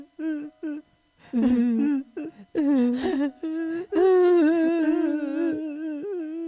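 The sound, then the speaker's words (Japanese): A voice imitates a young dinosaur crying, with whimpering, wavering tonal wails in several bursts separated by short gaps. The final wail is long and drawn out. “ビビリが泣き出した。”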